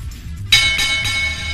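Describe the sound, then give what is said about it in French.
A double bell chime sound effect rings out with bright, sustained metallic tones that start suddenly after a quiet low hum and hold steadily to the end. “Allez, on va lancer une double clochette.”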